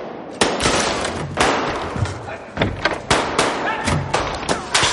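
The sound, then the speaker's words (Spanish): Gunfire as police shoot back at a man firing at an elevator in a 1930s hotel, many sharp, loud cracks and thuds in rapid, irregular succession, some overlapping. “Dimitri dispara al ascensor. Los policías disparan contra él.”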